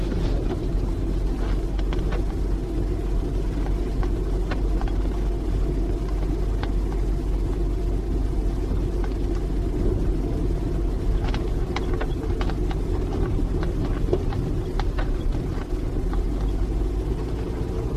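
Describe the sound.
Steady low engine and road rumble from a car driving along the Esplanade, continuous and fairly loud for the whole stretch with no voices.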